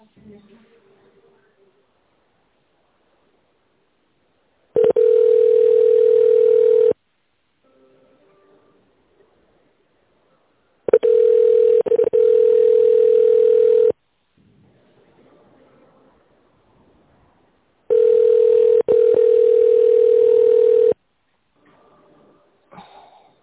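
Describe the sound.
Telephone ringback tone while waiting for an answer on a company line: three long, steady, buzzy beeps of two to three seconds each, separated by silent gaps.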